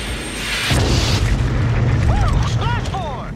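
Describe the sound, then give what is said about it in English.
A missile explodes against a MiG jet in a film scene, heard as a deep, sustained blast roar that begins abruptly after a short lead-in. Later, a few swooping whistle-like tones sound over the rumble. “Yeah, so he shoots the third MiG.”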